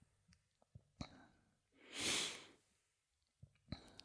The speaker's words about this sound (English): I have to take a pause there and just take a deep breath.